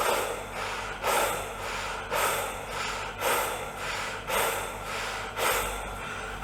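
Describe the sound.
Rhythmic breathing through the mouth in an exercise, six forceful breaths with a short pause after each, evenly spaced about a second apart, loud and airy, with no talk.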